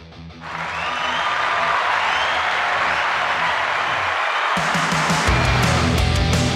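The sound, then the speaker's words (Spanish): An applause sound effect: a dense, continuous burst of clapping that swells in quickly and stays loud and steady for several seconds. “vamos a poner un aplauso, porque sinceramente se merece un aplauso, y de los grandes”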